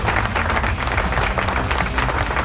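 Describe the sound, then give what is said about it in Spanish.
Applause for listeners during a talk-and-music radio program: a short, dense burst of many hands clapping at once, steady and fairly loud throughout. “Un aplauso a la gente de Chehueche, que lo hace siempre también.”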